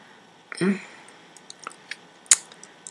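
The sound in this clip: Wet licking and mouth sounds: a soft squishy slurp, then several small scattered clicks and one sharper wet smack, all fairly quiet.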